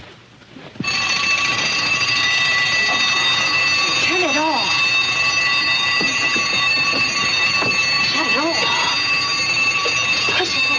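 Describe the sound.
A wind-up alarm clock rings in a continuous, steady, shrill tone that starts abruptly after a brief quiet moment and holds loud and unbroken for about ten seconds.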